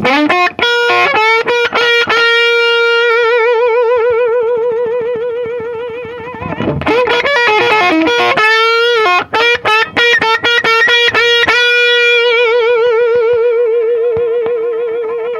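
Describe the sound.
A distorted electric guitar played through an effects unit set all the way up, with loud sustained bent notes, rich harmonics and a burst of choppy strums midway, all without talk.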